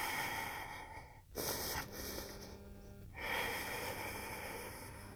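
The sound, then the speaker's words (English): Deep breathing in and out through the nose during a yoga plank makes a continuous airy rushing sound with a snorting edge. It dips briefly between breaths and stays fairly soft throughout. “Deep breaths in and out through your nose.”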